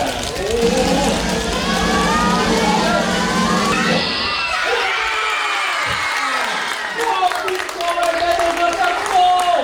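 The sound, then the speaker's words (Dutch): Children shriek and cheer loudly as the winner of a children's jury book prize is announced. The high-pitched screaming is continuous and intense throughout, forming a dense crowd roar of young voices. “Er werd zo hard gegild dat het bijna niet te horen was”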